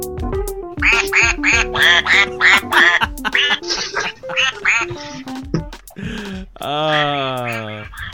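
A squeaky toy duck quacks in a rapid series of nasal, honking squeaks, followed after a short pause by a couple of longer, drawn-out quacks.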